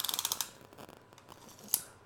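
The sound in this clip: A bow hunter's measuring tape being handled makes a rapid run of ratcheting clicks, then softer scattered clicks and one sharp snap near the end, all faint with no talk.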